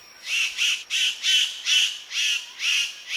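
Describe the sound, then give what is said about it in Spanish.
A male superb bird-of-paradise calls to a female with a series of harsh, buzzy, high-pitched squawks, many evenly spaced bursts repeated in a steady rhythm with short gaps between them. “Este pretendiente recibe el nombre de Ave del Paraíso Soberbia. Este mago tiene un truco especial. Primero anuncia su espectáculo llamando a la hembra.”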